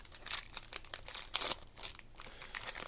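Crinkling plastic wrapper of a pack of football trading cards being torn open: many quick, bright rustling bursts in an uneven rhythm, fairly faint and without talk.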